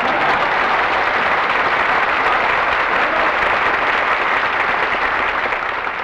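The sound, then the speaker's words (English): Studio audience applause welcoming Phil as he arrives, a steady, even wash of clapping that holds at the same level for the whole stretch with no voices over it. “You got a nice hand there.”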